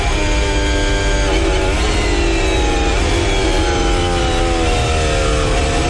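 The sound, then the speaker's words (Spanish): A Formula 1 car engine at full throttle gives a loud, sustained, high-pitched whine. The pitch holds steady with small dips and recoveries across the whole stretch, with no voices. “Mira, ahí va fondo. Escuchen el motor. Fondo.”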